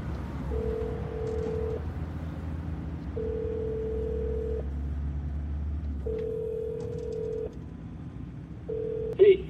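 Telephone ringback tone from an outgoing call being placed: four long, steady mid-pitched tones separated by pauses, the last one cut short, over a low rumbling background.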